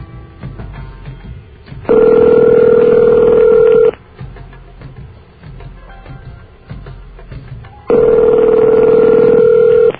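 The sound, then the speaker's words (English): Two long, steady ringback tones from a telephone call to directory assistance, each lasting about two seconds, separated by a quiet pause of low hiss. “First, the ring.”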